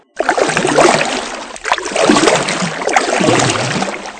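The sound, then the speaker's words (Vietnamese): Water sloshing and rushing as a small paddled boat pulls away along a river. The sound comes in a few steady, full surges, as if with each paddle stroke. “Dứt lời, cô ta nôn nã bơi xuồng đi.”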